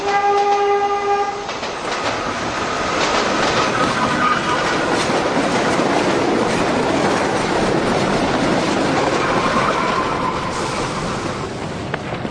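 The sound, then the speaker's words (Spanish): A train horn blasts for about a second and a half. It is followed by the loud, continuous rumble and rattle of a crowded passenger train in motion. “se subió al tren, empujado y empujando”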